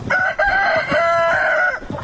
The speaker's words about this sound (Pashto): دا کور په انګړ کې 15 چرګ چرګان په خاورو کې مشو کې وهي.